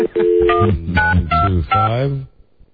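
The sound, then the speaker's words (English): Telephone dialing tones sound in a quick run of several bright electronic beeps, each held briefly before the next, moderately loud and ending in near silence. “Dial the number that's circled here. Dial the number that's circled.”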